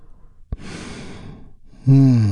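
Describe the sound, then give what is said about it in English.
A deep breath, drawn in as a soft, airy rush after a small click, then released as a strong, voiced sigh. “which we start by taking a big, deep healing breath all together. Here we go. And release.”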